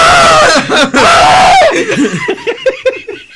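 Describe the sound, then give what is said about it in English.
A voice imitates a person screaming in two long, high-pitched wailing bursts, then breaks into a run of short, rhythmic laughs that fade toward the end. “and then he starts screaming”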